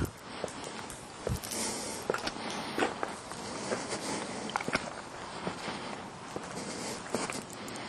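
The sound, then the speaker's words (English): Footsteps of someone walking outdoors at night near woods, a quiet series of many soft, irregular steps and crunches over faint background hiss. “Taking a walk at night.”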